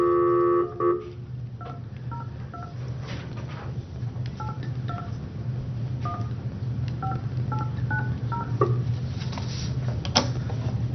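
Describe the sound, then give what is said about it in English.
Telephone keypad dialing tones: a louder tone at the start, then a long run of short touch-tone beeps in quick, irregular groups over a steady low hum. “Do I have to dial nine? Mm-hmm. And a one.”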